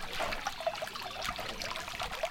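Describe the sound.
Creek water trickles past a beech tree beside a trail in a soft, continuous, quiet flow with small bubbling flickers and no voices.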